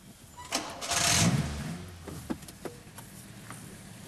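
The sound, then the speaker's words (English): A car engine starts and pulls away at green traffic lights during a driving lesson after the handbrake is released. A faint hum swells into a louder surge, then settles into a quieter running drone with a few small clicks. “Release the handbrake and off we go again.”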